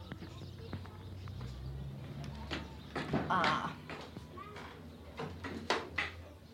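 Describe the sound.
A very small wooden toilet door with a wide gap, latched by a wire loop around a nail, is handled in a township, giving scattered clicks, knocks and rattles while a person speaks.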